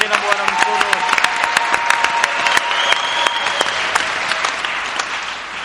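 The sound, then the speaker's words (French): An audience applauds during a French-language church service, with dense, even clapping that continues for nearly six seconds and a voice briefly audible over it near the start. “Acclamons encore notre Dieu.”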